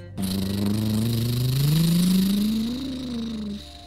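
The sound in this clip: Monster truck engine revving at full throttle while climbing a giant muddy hill: a loud, sustained engine drone that rises gradually in pitch, eases slightly near the end, then cuts off.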